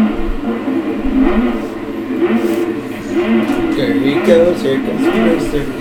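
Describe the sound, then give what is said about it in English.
A car drives fast in a film scene, its engine revving with a continuous rumbling whir under people talking throughout. “Oh, he's driving too fast.”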